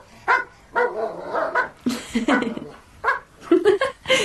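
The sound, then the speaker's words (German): Doberman dogs bark in a long run of sharp, loud barks that come in irregular bursts. The barks are closely spaced, and some come in quick pairs, with short gaps between them. “Die Hunde bellen. Einer bellt immer.”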